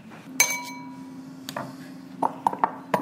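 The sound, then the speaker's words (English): Mayonnaise, capers and gherkins going into a bowl for homemade tartar sauce: one ringing clink, then scattered lighter knocks and a quick run of sharp glassy clinks toward the end. “We are making the tartar sauce, mayonnaise, capers, gherkins, and you can put them in a bowl together.”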